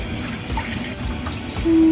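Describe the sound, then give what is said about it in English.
Chicken broth pours into a pan sauce, a steady, fairly loud wet rush that holds level throughout and swells louder near the end. “Now you can add your chicken broth. I'm not going to do it all, though.”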